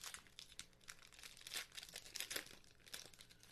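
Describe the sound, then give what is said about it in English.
A foil pack of basketball cards being torn open: continuous crisp crinkling and ripping, with several louder tearing bursts rising and falling throughout. It is heard alone, with no voices. “Tear open so poorly.”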